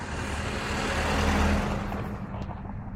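Steady engine and road noise from a car driving slowly along a one-way road through a residential courtyard. A continuous low rumble swells a little toward the middle and then eases off.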